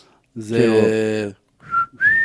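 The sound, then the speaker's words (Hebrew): A man whistles with his lips: two short, clear whistle notes, the second higher and rising, after a brief voiced sound. “גברים ששורקים ככה עם השפתיים”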